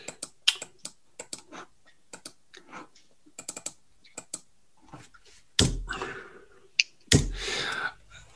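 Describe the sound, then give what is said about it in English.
Text is typed on a computer keyboard in many light, irregular key clicks with short pauses, ending in two louder, duller thumps. “Uh, oh, okay, I need to put text in.”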